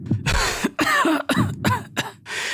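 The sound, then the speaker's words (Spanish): A person fakes a severe coughing fit: a rapid series of loud, harsh, voiced coughs separated by brief gaps. “Empiezo a simular una tos severa que hace que me arrodille y me llevo el pañuelo bordado a la boca.”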